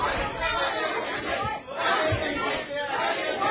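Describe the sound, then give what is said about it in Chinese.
Noise from the public gallery during a meeting, heard as a continuous wash of overlapping voices and indistinct chatter at a steady, moderate level. “我请观众席嘅朋友唔好再喺度喧哗，阻住我哋开会。”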